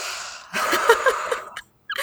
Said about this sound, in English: Take a deep breath for Pluto.